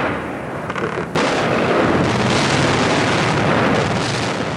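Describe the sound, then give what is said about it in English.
Gunfire and explosions echo across Baghdad during the 2003 Shock and Awe bombing campaign, a loud, dense, continuous rumbling roar that surges suddenly louder after about a second and stays heavy to the end. “Listen to this, Jamie. These are shots being fired now in Baghdad. I want our viewers to listen in.”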